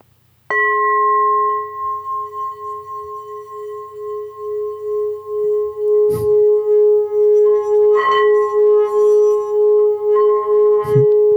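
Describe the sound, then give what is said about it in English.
A meditation bowl rung loudly, giving a strong, pure, bell-like tone with steady overtones that rings on and pulses gently. It is struck again a few times, and each strike makes the ringing swell, with a second note joining in. “But this is a meditation bowl that I got at a Ren Fair. Right, okay. What I love about this one in particular so much is how loud it is.”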